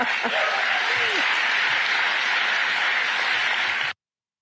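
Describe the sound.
A crowd at a political speech applauds, a dense, steady clapping that lasts about four seconds and then cuts off sharply.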